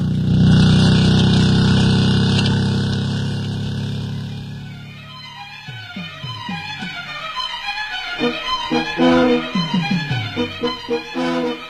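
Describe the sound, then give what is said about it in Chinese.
A car engine starts and drives off. It runs with a loud, steady roar, then fades away, and a rapid series of rhythmic pulsing sounds follows. “坐稳了啊，哎，请让一下，我开车了。”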